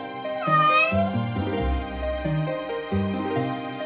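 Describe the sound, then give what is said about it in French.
A cat meows, a drawn-out, wavering cry near the start, heard on rooftops at night, with steady tonal sounds continuing beneath and a low rumble in the middle. “une silhouette noire et féline se faufile avec agilité. C'est un chat qui profite du clair de lune pour se promener.”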